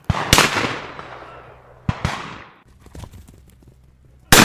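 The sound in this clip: Twelve-bore game guns fire at high driven pheasants: a few loud, sharp shotgun cracks, each trailing into a long rolling decay, with quieter rustling and faint noise between the shots.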